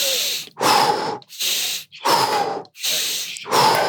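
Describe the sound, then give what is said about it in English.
Deep, forceful breaths from a breathing exercise, about six rapid rhythmic strokes alternating between inhaling and exhaling, each a loud airy hiss with brief pauses between, and no talking. “I usually like to also open up my shoulders when I inhale, and kind of bring my shoulders forward when I exhale.”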